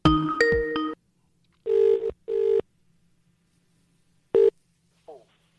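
Skype call-connecting tones: a bright multi-note electronic chime, then two identical mid-pitched beeps in quick succession, a later single short beep, and a faint closing blip, all clean with no talk.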